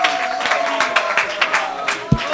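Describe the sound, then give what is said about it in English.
A church audience claps in a quick, fairly regular rhythm with a sustained tone running underneath. Voices mix into the clapping, and a couple of heavier thumps land near the end. “You're not clapping for me. You need to clap for him.”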